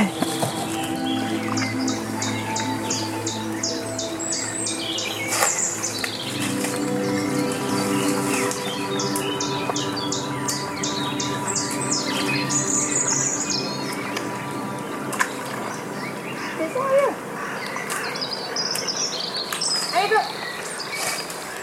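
Birds singing beside a stream: many high chirps and short warbling calls over a continuous dense bed of insect-like trilling and flowing noise.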